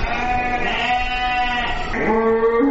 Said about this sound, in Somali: qaabka xooluhu u soo galaan xerada dabaaxadda